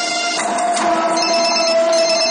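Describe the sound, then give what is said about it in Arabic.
A telephone rings with a continuous, loud electronic trill of steady high tones that holds without a break and no voices. “تليفون.”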